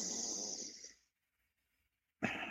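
Slow, controlled breathing used to lower the heart rate: one long, breathy airflow that fades out, a silent pause, then another breath that starts abruptly.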